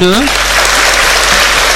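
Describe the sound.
Audience applause at a formal stage event, a dense and steady wash of clapping that holds loud and even throughout, with a brief voice at the very start.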